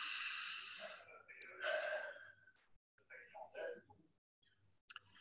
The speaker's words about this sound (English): Could everyone take a deep breath, please?